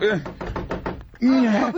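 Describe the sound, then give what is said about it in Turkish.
Knocking on a door: a quick run of hollow raps, with a voice just before and just after. “Kapı çalınıyor. Sakın polis olmasın.”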